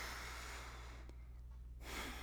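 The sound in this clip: Faint, airy breathing from a person taking a slow breath, a soft continuous rush of air broken by a short pause before more breath sound resumes.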